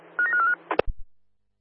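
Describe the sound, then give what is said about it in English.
Telephone dialing tones: a rapid run of short tones lasting a fraction of a second, followed by a few brief clicks and low thumps before silence. “Roger, dialing now.”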